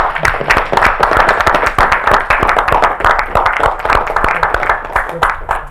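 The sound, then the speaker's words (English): Conference audience applause: dense, loud clapping from many hands continues steadily for the whole clip without pause. “I wanted to make sure that we make a round of applause for the David Bridges”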